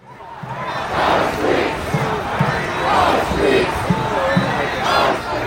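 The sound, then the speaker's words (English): A large crowd at a street protest in Minneapolis, held in temperatures as low as minus 25 Celsius, chants a short slogan in unison. The loud, rhythmic chant repeats several times in a steady pulse. “That is the sound of large protests in the US city of Minneapolis, despite temperatures as low as minus 25 Celsius.”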